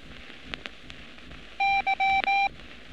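Morse code signal for the letter Y, sent as a steady beep tone. It is keyed as one long element, one short and two long, clear and loud over faint background noise.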